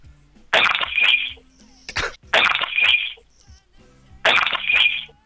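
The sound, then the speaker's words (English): Sound effect of glass breaking, with three bright shattering crashes at regular intervals, each trailing into tinkling fragments, with quieter sounds between them. “and then play the clip of that glass breaking?”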